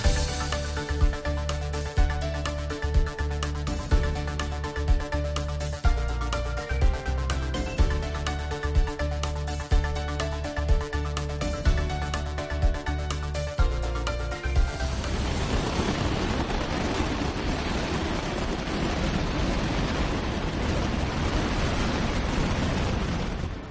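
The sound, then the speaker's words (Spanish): Mascletà firecracker display in Valencia's Plaza del Ayuntamiento: loud, rapid, rhythmic volleys of sharp bangs, which then merge into a dense, continuous thunderous roar. “Este es el sonido de hoy, la mascleta de la plaza del Ayuntamiento, que hasta el momento continúa con normalidad según las autoridades valencianas.”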